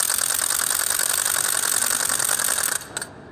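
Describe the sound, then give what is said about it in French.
A small wooden ratchet rattle cranked by hand gives a fast, bright, continuous clatter that stays loud and even for nearly three seconds, then stops abruptly, leaving a couple of last clicks. “Cette crécelle, elle est toute petite, celle qu'on entend.”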